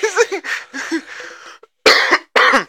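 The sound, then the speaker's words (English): A man clears his throat with rough, voiced rasping sounds, then two loud, harsh coughing bursts close together at the end. “just like to try to clear his throat”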